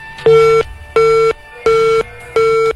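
A phone line tone after a call is cut off: four evenly spaced, steady electronic beeps of equal pitch and loudness, separated by short silences.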